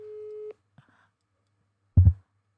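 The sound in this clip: A steady telephone calling tone sounds once for about half a second on an outgoing call, then stops. A faint click follows, and a short low thump comes near the end.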